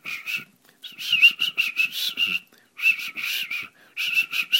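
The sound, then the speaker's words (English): A person whistles an unimpressive tune in three runs of quick, choppy notes with short pauses between them. The tone is thin, breathy and wavering, and no one talks. “now you know that's not a very impressive whistle.”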